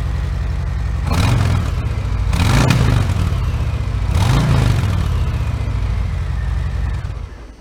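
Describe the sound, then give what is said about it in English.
Harley-Davidson Milwaukee 8 motorcycle engine running with a deep, steady rumble, rising in three brief surges of revs before settling back to a low throb. “you can hear that Milwaukee 8 just sounds tighter. The repetitions of the motor are closer together, and it just offers a very unique sound, staying true to that Harley-Davidson sound.”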